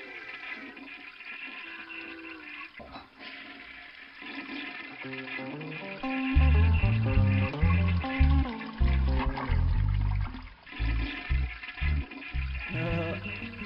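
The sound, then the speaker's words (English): A toilet flushing: a long rush of swirling, gurgling water that swells louder about halfway through and keeps churning in uneven surges, with no voices. “Stop flushing the toilet!”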